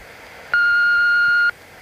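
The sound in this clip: An answering machine beep: one steady, high electronic tone holds for about a second and then cuts off abruptly over a faint background hiss.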